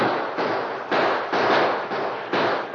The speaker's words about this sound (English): And the gunfight continued without any letup, and Soapy's men crawled closer and closer. Their bullets ripped into the wooden barrier